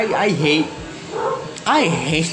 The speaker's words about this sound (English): I hate dogs, but I hate when dogs do this. It's genuinely annoying. Those are not my dogs, neighbor's dogs